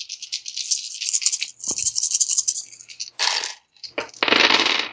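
Six dice rolled during a tabletop role-playing game, giving a loud rattling clatter in several bursts with short gaps, then a final dense burst of tumbling clicks, with no talk over it.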